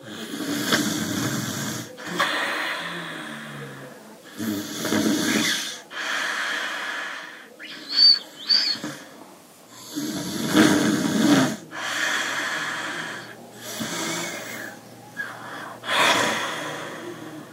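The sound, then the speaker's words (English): A grandmother snores in a long series of rasping, snorting breaths that come roughly every second or two. The breaths vary in loudness, with a few sharp snorts and short gaps of quiet between them. “she started to, like, have strong sodage for her grandmother snoring. And so she recorded it.”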